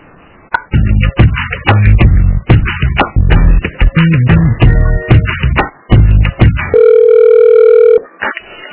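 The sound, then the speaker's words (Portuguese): A telephone call being transferred, with a steady, flat line tone of about a second that follows a long stretch of busy, narrow telephone-band sound. “Eu vou transferir a ligação lá de novo, que eu acho que caiu.”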